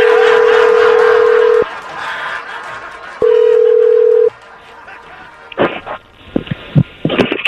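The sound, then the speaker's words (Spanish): Telephone line tones sound as a call is placed: a steady, low electronic beep plays twice with a pause between, over faint background noise, then short loud bursts of sound follow. “Vamos a marcar.”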